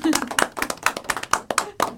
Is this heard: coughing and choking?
no